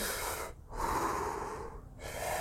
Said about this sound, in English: I'm taking deep breaths to trick my nervous system into thinking it's safe, because it actually is.